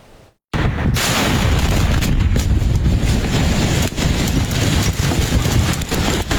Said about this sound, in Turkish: Patlama sesleri ard arda yükseldi.